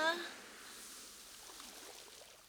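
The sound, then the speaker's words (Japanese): Gentle ocean waves washing onto a sandy beach make a soft, steady hiss of surf throughout. A brief voice sounds at the very start. “砂浜気持ちいい波のしじまいいな。”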